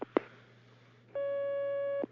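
A telephone tone as an incoming call connects to a phone-in line: one steady, sustained electronic beep lasting about a second, preceded by a couple of faint clicks over a low, constant hum.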